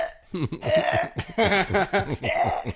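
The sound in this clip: Voice imitating dry heaving like a cat coughing up a hairball: a few strained, croaking gag bursts in quick succession, rough and throaty.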